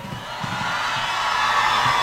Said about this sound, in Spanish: ¿Podemos sentir el poder de los gritos femeninos hoy también o no?